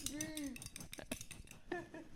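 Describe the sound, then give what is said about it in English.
Two spoons struck together as a rhythm instrument give several quick, bright metallic clicks mixed in with voices and laughter. “Is it two spoons being hit together? Yeah. Oh my God, you're playing the spoons.”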